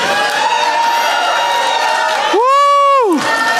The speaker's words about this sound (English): The sound of people getting set free. The sound of people getting happy on Jesus. The sound of people getting healed. That's the sound of revival.